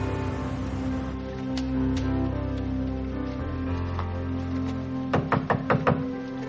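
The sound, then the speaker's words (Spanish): Knuckles rap on an executive's office door in a quick series of crisp knocks near the end, after several seconds of a steady tonal background hum. “John llama a la puerta de un ejecutivo y entra en el despacho.”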